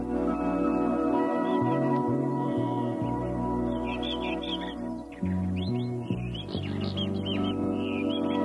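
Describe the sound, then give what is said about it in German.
Birds chirping in short, bright, repeated twitters over a steady low droning hum, with bursts of calls clustered early and again through the second half. “Ich finde das Vogelgezwitscher sehr wohllautend und angenehm”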